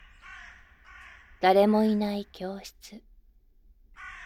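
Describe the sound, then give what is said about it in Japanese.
Crows caw at dusk outside an empty school classroom after hours, a few loud, harsh caws bunched in the middle, with a soft voice speaking before and after them. “カーカーと鳴くカラスの声に”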